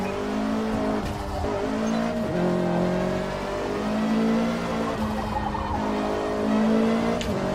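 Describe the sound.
A car engine drones steadily throughout, its pitch shifting up and down slightly as the car is driven, with no pauses and no talk.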